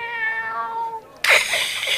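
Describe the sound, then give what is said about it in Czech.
Cats meow in a cat-filled tavern: a steady, tonal meow holds, breaks off, then a louder, harsher yowl bursts in and carries on to the end. “naše ucha to nevidí, tak jim to zprostředkujeme, tento zážitek. Je tady spoustu koček. Je taková kočičí kavárna před kočičími kavárnami.”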